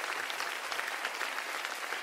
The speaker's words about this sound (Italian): un applauso, venite qua, un applauso